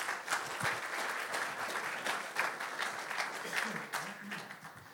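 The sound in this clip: An audience applauds warmly to welcome a guest speaker. The clapping stays dense and steady throughout, with a voice briefly audible over it near the end.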